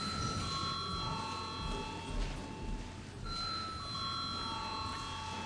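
An electric bell rings in a parliamentary session to call members to a vote. Two long stretches of bright, sustained ringing are split by a short break near the middle, over a low murmur of room noise.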